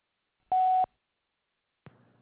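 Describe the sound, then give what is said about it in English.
A voicemail tone signalling the caller to leave a message: one short, steady, clear beep, followed after a pause by a brief soft burst of noise. “To leave a message, wait for the tone.”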